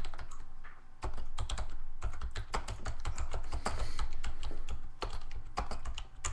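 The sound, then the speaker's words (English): Someone types on a computer keyboard in rapid, uneven bursts of many quick clicking keystrokes. The clicks are fairly faint and no one speaks. “I'm so high, I can't even type. I'm Googling the CIA suicide bomber news ticker.”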